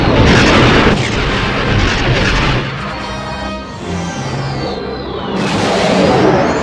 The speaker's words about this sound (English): Heavy fire, boss. 23 degrees. I see it. Stay low.